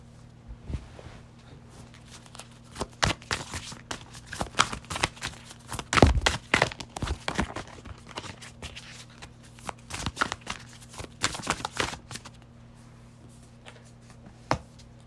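Playing cards are shuffled for a card reading, a quiet run of many irregular riffles, snaps and soft taps in uneven bursts, with a few sharper clicks standing out.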